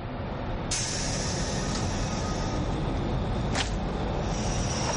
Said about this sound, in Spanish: El metro se va.